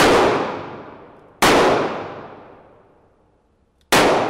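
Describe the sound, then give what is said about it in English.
Three shots from an old-fashioned Smith & Wesson .38 revolver fired at a target 15 feet away, each a sudden loud crack followed by a long, slowly fading tail, with no talk between them. “He locks in on his target, 15 feet away, steadies, and fires.”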